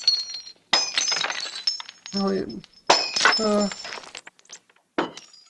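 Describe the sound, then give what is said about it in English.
Remaining window glass around a frame's edge being knocked out: several sharp shattering bursts with bright clinks and tinkling shards, with a voice talking between the breaks. “Window? There's still a little bit of glass around the edge. Hold on.”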